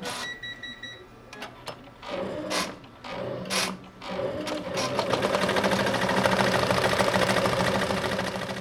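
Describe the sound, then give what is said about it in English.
An embroidery machine that stitches hats and flat items runs with rapid mechanical chatter. A few brief tonal beeps and irregular clacks come first, then it settles into a continuous, loud, even whir. “These embroidery machines do hats or flat things like this.”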